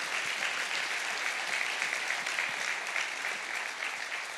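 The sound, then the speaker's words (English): A crowd applauds the people who turned up to help. The clapping is a steady, fairly quiet wash of many hands that keeps an even level for the whole stretch. “let's give all the people that showed up a round of applause.”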